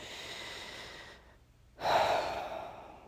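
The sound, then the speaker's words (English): A long, deep human breath, a steady breathy rush that dips briefly into near silence and then swells again into a fuller, louder airy breath, heard alone without talk. “Let's take a long, deep breath together”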